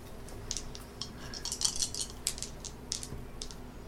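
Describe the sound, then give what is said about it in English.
Battle dice are thrown and roll during a tabletop role-playing game, making a faint scatter of many small, sharp clicks and rattles that cluster in the middle and then taper off. “I think I'm going to throw my battle dice at it just to see if I can get sixes.”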